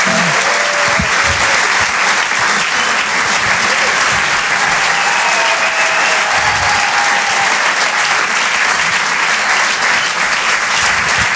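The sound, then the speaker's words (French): Audience at a comedy show applauding after a comedian's set: dense, sustained clapping that stays loud and steady for the whole stretch. “Faites du bruit, s'il vous plaît, pour Reda Sediki.”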